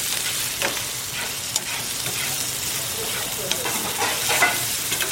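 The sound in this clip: Steady sizzling of carrots and leeks frying in a pan at a cooking school, a dense hiss running throughout, broken by a few small clicks and scrapes of stirring.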